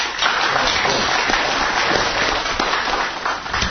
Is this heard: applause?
yes